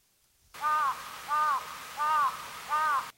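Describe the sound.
Crow cawing: four harsh, evenly spaced calls, each a loud, arching, mid-pitched caw of about half a second, repeated in a steady rhythm over a soft background hiss.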